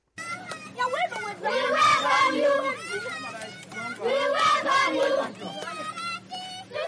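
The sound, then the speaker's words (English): A group of children welcome a US senator and his team in the rebel-controlled area of Ganyel, South Sudan, their excited voices rising together in two loud, swelling bursts of chatter and calling. “A group of children welcome Democratic Party Senator Christopher Coons and his team to the rebel-controlled area of Ganyel”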